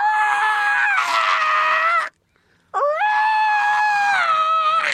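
A toy dinosaur with blinking eyes and a blinking tongue gives two long, very loud, shrill roaring screeches. A short silence separates them; the first sags in pitch at its end and the second swoops upward as it begins.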